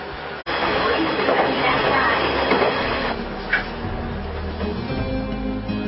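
A train pulls away after passengers board at Hanamaki Station, a loud, continuous rumble of wheels and carriages that holds steady throughout, with a brief higher-pitched squeal partway through.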